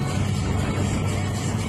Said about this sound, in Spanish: el vídeo de un coche, no ya en sentido contrario, Pilar, sino circulando marcha atrás durante casi 2 minutos en una carretera de doble sentido en Tenerife. Mira cómo va.